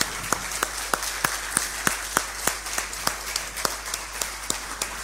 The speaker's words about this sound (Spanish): Pero un fuerte aplauso, claro.